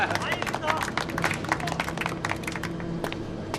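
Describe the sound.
Applause welcoming the chief commander from Beijing of the Deep Sea One project: many quick, sharp claps mixed with lively voices talking and calling out.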